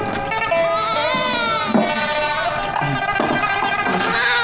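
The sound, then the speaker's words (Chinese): A hungry infant cries in loud, continuous wails, the high and strained voice wavering in pitch with a few brief catches for breath. “这孩子呀，不是病了，是饿了。 这可咋办呢？ 没他娘的奶吃，那孩子能不哭吗？”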